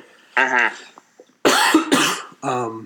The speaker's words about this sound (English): that's not COVID. That's just a regular cough.